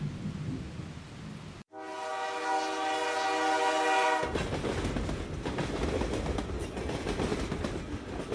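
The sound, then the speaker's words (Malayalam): A train travels at night through dark, stormy weather with heavy rumbling rail noise, broken by a long, steady horn blast of about two and a half seconds, after which the loud rolling rumble continues. “ജനതൻ Harker ട്രാൻസൽവേനിയയിലേക്കുള്ള ട്രെയിനിലായിരുന്നു”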